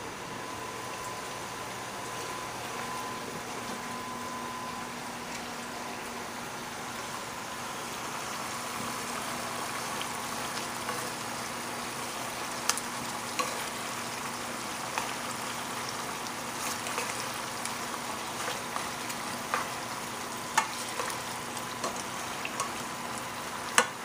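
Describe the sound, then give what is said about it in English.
Vinegar, about a quarter cup, stirred into a pan while making pickles gives a faint, steady sizzling hiss, with light scattered clicks of the utensil growing more frequent in the second half. “And now I'm going to go ahead and just add a tad bit of vinegar in there. Maybe about 1/4 cup of vinegar. Let's go ahead and stir this.”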